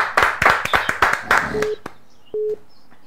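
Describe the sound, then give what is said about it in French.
Scattered claps from a church audience acclaiming the name of Jesus Christ, about a dozen sharp hand claps in quick succession, then two short steady electronic beeps with quiet between them. “Acclamons pour le nom du Seigneur Jésus-Christ.”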